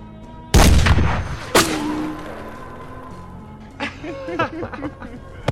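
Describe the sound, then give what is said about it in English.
Two sharp, loud gunshots during a shooting practice session, each cracking out abruptly and leaving a lingering ring, followed a few seconds later by people talking. “Oh, you sure shoot like a man.”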